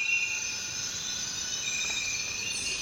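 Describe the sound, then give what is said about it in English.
Insects call in the Amazon rainforest of Ecuador, several high, steady droning and buzzing tones layered together in a continuous, even chorus with no breaks. “There's so much insect activity there. And all the insects that are vocalizing each have their own little space on the frequency spectrum.”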